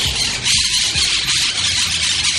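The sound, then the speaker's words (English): Wild monk parakeets in Brooklyn squawking, a few harsh, scratchy calls over a dense, steady hiss of background noise. “The monk parakeet. Native to Argentina”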